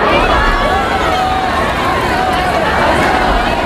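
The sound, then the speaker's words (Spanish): Crowd chanting together in the Plaza de España in Melilla, a dense, loud, unbroken roar of many voices with faint sung lines rising through the wash of noise. “se escucha corear también en este caso a los melillenses.”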